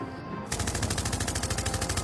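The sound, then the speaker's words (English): Machine gun fire starts abruptly after a brief half-second of low ambience and continues as a rapid, evenly spaced, loud stream of many shots to the end. “Watch it! Don't shoot me!”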